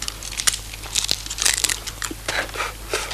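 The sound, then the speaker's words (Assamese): A plastic packet of peanuts is crinkled open, giving many irregular, sharp rustles and crackles of loud, crisp plastic. No voices are heard. “খোলাচোন খোলা, বাদামৰ পেকেটটো খোলা।”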